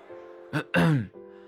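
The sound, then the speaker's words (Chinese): A voice performs an affected throat clearing for a woman flushed from toasting, standing on a stage at a birthday banquet: a short rasp, then a longer voiced ahem, over faint steady background music. “装模作样的清了清喉咙说”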